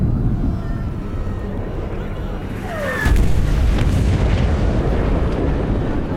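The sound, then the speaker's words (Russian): Artillery shells fall and explode around a desert fortress: a loud, continuous roar of rumbling blasts that swells into a heavier, denser barrage about halfway through and stays dense to the end. “Падают и взрываются снаряды.”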